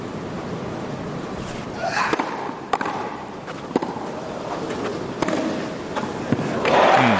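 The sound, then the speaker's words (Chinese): Tennis ball strikes from a 137 mph serve and a fast, deep return in a professional match: a few sharp, crisp impacts spaced apart over a steady wash of crowd and court noise. “那我们看到费里面对对方137英里时速的强劲的发球，这个接发球接得真的是非常出色，又快又深。”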